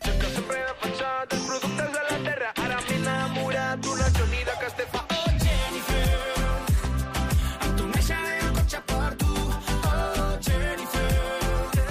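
A new version of a well-known Catalan pop song plays as a full band arrangement with a steady, driving beat and dense instrumentation, loud throughout.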